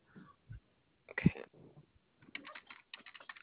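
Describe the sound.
Computer keyboard typing while card details are copied and pasted, a scattered series of quiet clicks in short clusters, sounding thin and muffled as if through a phone line.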